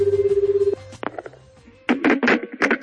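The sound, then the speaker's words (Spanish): A telephone ring sounds as a short burst of fast pulsing tone, then cuts off into faint clicks and clatter before louder irregular bursts of noise follow. “dedicado a Jack Warner, aquella llamada de Camacho a Gamal Al Ghandour. Que suene, por favor.”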